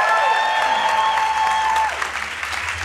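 Audience applause greets Alec Baldwin and Spike Lee before a live audience at the Tribeca Film Festival: dense, steady clapping with some crowd noise, easing slightly toward the end.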